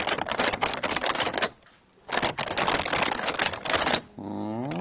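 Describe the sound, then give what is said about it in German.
Crisp crackling and rustling come from a lantern made of tissue paper as it is handled, in dense bursts broken by a short quiet pause, with a brief voice at the end. “Ich habe jetzt in der Hand eine Laterne und das ist das Transparentpapier”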